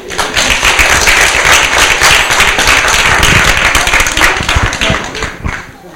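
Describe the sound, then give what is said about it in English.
Audience clapping for a team, with individual sharp claps standing out as distinct taps rather than a smooth roar. It stays loud for several seconds, then thins out and fades toward the end. “And let's give another round of applause, please, for our team.”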